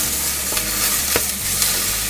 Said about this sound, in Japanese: もうカラッと炒めちゃいます。高温で殻を炒めていきます。